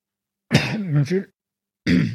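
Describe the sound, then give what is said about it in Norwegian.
A throaty cough or throat-clearing from a speaker pausing mid-sentence. It is a single harsh, voiced burst of moderate loudness, followed after a short silence by a voice starting again. “og forladelse at jeg måtte hoste”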